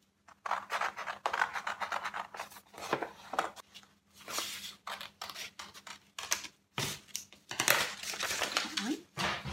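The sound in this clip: Scissors cutting out a paper dove template: many irregular crisp snips and papery rustles in bursts, some louder than others, with brief pauses between passes.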